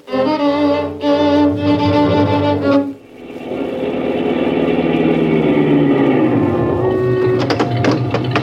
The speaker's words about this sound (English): Keep that motor running, I'll be right back.